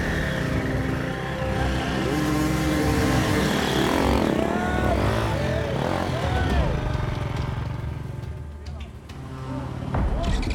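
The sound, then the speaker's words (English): Dirt bike motorcycle engine struggling through the woods during a race, revving and bogging in uneven surges. The engine's whine rises and falls over a rough, continuous roar that dips briefly near the end. “As Johnny and Mitch rely on teamwork to wrestle their bike through the woods”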